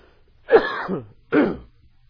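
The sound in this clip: Throat clearing from a tickle in the throat: two rough, raspy bursts, the first longer and the second shorter, separated by a brief silence, alone and without talk.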